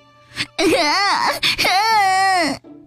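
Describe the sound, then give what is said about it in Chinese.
A human voice imitates a little elephant in a children's story crying loudly: two long, wavering, bawling wails with a brief catch between them. “笨小象哭了起来。哦，小胖象哭得比他还厉害，笨小象的眼泪流得像喷泉”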